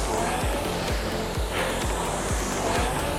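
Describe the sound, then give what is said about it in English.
A rowing machine's flywheel spins up in a dense, steady whirring rush, marked by a fast, regular low pulse about twice per second that keeps an even rhythm throughout. “to connect with the good timing to the flywheel to get that up spinning”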